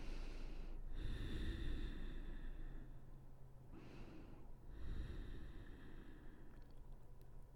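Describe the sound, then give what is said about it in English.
Deep, slow breathing during a yoga stretch: long, airy inhales and exhales, quiet and unhurried, with no talk over them. “Breathe. We'll take about 5 massive breaths here.”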